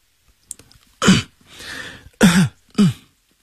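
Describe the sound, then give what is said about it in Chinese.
A man coughs lightly to clear phlegm: three short, throaty coughs with a softer breathy sound between the first two, after a faint click at the start. “他轻轻地咳嗽几声，将痰吐进痰盂”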